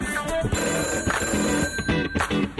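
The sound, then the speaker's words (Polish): Telephone ringing for an incoming call, with several bright electronic ring bursts in a repeating pattern. “I kolejny telefon na naszej antenie.”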